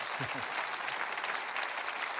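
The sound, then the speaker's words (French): Audience applause for the love of God at a Christian gathering: a dense, even clatter of many hands, with a brief voice near the start. “on va applaudir l'amour de Dieu ensemble. Deux, trois fois, je vous coupe.”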